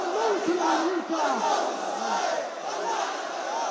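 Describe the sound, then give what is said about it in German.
Thousands of protesters chanting battle slogans at an organized Friday street demonstration in Sana'a, Yemen, a loud, continuous mass of shouted voices rising and falling in chant rhythms. “Jeden Freitag gehen in Sana'a Tausende auf die Straße, in einer organisierten Veranstaltung voller Kampfparolen und geballter Fäuste.”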